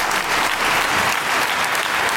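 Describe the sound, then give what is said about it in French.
Dense, steady applause from the 150 metropolitan councillors in a council chamber greeting a newly elected president, sustained at an even loudness for the whole clip with no voices standing out. “Sous les applaudissements, Bruno Bernard”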